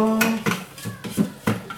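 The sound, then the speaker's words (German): A spatula scrapes chopped food down inside a food chopper, giving several short scraping knocks spaced unevenly across a brief moment. “So, jetzt soll ich das mit dem Spachtel da oder Spatel, wie das Ding heißt hier, alles nach unten schieben.”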